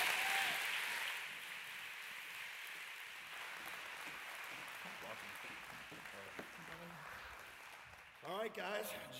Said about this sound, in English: So Summit Church, at all of our campuses, why don't you put your hands together and welcome here to our stage, Jen Wilken.